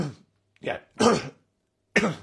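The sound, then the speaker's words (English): A person clears their throat in four short, rough, loud bursts separated by brief pauses, with no talk. “apologies, clearing my throat.”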